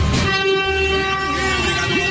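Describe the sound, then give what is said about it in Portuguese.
A vehicle horn honks at Piaçaguera in one loud, unbroken blast with a rich, buzzing harmonic tone that holds steady throughout. “Vamos lá, vamos buzinar. Buzina aí, meu filho.”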